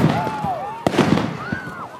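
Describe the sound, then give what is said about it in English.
Police flashbang devices explode during rioting in Minneapolis and St. Paul while chemical munitions are deployed. One sharp loud bang is followed by a few smaller pops, with wavering, rising and falling wailing tones in the background. “And a few minutes later, it sounded like this as police shot flashbang devices and deployed chemical munitions.”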